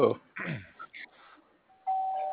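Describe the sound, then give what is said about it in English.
A doorbell gives a single sustained electronic chime, steady and fairly loud, ringing out alone after a few brief bursts of voice. “the other horse rings the doorbell with his nose.”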